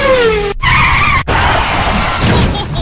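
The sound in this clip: Porsche tires squeal loudly as the car skids, a sustained high whine that wavers and breaks off twice, over a rough engine roar.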